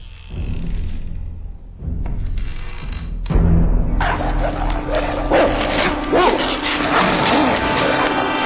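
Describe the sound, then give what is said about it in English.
Dogs barking and yipping in a film scene, brought in by an animal trainer in Montreal. Scattered barks and a few whimpers sit within a dense, noisy soundtrack. “With the first time we shot it, we had an animal trainer in Montreal brought these dogs.”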